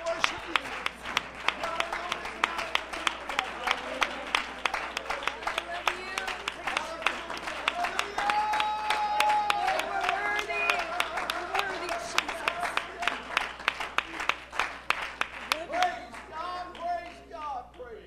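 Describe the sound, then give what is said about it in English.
A church audience claps in praise: many sharp, rhythmic hand claps run throughout at a moderate level, with voices audible beneath them. “If you're not ashamed of the gospel of Jesus Christ, would you give the Lord a hand clap of praise?”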